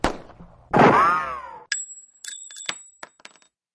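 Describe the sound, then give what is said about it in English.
A gunshot sound effect opens with a sharp blast, then a loud, ringing, whining tone, followed by several sharp metallic clinks and ticks that thin out and fade toward the end. “I have so missed the gunshots. Oh, yes, the gunshots.”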